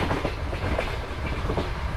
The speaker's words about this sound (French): On va arriver à la prochaine gare d'ici bientôt.